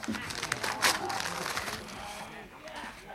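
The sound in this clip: A paper letter crinkles and rustles as it is unfolded and handled, with a few sharper crackles early on and softer rustling after. The sound is faint.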